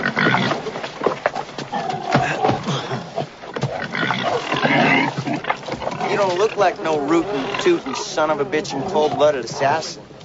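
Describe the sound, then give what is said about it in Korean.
Pigs grunt and squeal on a small farm where an aging man raises them with two young children, a run of rough, wavering animal calls mixed with people's voices. “이미 인생의 황혼기에 접어든 윌리엄 머니가 어린 두 아이와 함께 돼지를 치며 살고 있습니다.”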